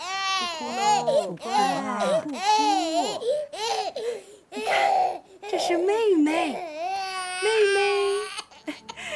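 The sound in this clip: A baby cries after waking up hungry, letting out several bursts of high, wavering wails with short gaps between them.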